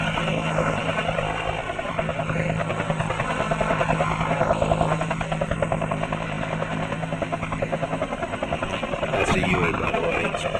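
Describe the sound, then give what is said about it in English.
A military aircraft taking off slowly over the tip of the runway gives a loud, continuous engine roar with a throbbing, pulsing texture. It stays steady and dense for the whole stretch. “There's too much noise. I guess he's gone now. He was taking off right over the tip, but he was going too slow.”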